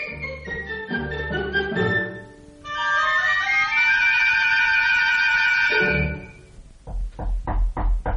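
Knocking at a door at night: a brisk run of several sharp knocks bursts out at the very end, following a long tonal passage that fades away.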